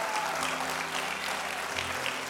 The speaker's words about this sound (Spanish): Vamos, si usted lo cree, denle un aplauso al Señor.